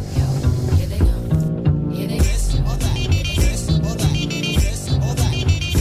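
An upbeat song with a steady thumping beat plays as a segment intro, loud and without talk over it.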